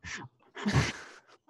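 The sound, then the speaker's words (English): A sharp, breathy inhale rushes in for about half a second, framed by short, soft vocal sounds just before and after it. “that inhale was the best.”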